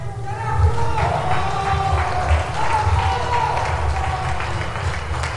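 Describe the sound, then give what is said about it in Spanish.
Crowd applause and cheering break out at a wake in the government house in Buenos Aires, where thousands of fans file past a coffin covered in flowers and shirts. The clapping and crowd noise are loud, dense and steady for the whole stretch. “Esas ovaciones espontáneas rompen el silencio de 6 horas que llevan desfilando sin cesar los miles de aficionados por un féretro rodeado y cubierto de flores y camisetas del 10.”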